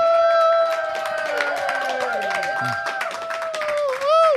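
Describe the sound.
A comedy audience applauding and cheering to welcome a performer on stage: continuous clapping with sustained voiced whoops and cheers over it, swelling again briefly at the end.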